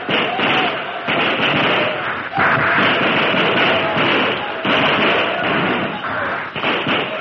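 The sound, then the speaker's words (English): Rapid rifle fire from a fort: dense, overlapping shots crackle loudly and almost continuously, with only brief lulls between bursts. “The Comanches had hardly crossed the stream before the flames passed the fort, but the light from the burning oil made them targets for the rapid rifle fire from the fort.”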